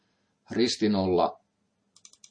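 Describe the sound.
Computer mouse clicks in a tic-tac-toe example program: a person speaks briefly, then four quick, light clicks follow in a short, even run.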